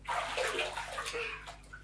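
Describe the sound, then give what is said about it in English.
Water running over soapy hands to rinse them clean: a faint, steady splashing rush, continuous and unbroken. “get some water on your hands like this, and then you rinse it off, like that.”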